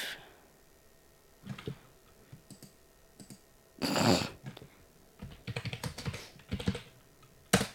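Computer keyboard typing during an online game chat: a few scattered bursts of quick clicking keystrokes with pauses between them, fairly faint, plus one sharper click near the end.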